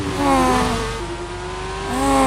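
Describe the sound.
A man's voice imitates a NASCAR race car engine with a buzzy, droning hum that dips lower, holds a steady low tone, then climbs again near the end, loud and with no other sounds.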